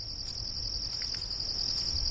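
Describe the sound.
Crickets and other insects chirp at night in a steady, continuous high-pitched chorus that holds an even level for the whole moment, with no voices.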